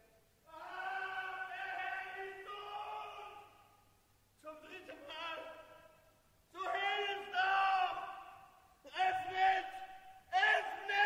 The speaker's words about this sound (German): Was ist geschehen? Was soll hier das Geschrei?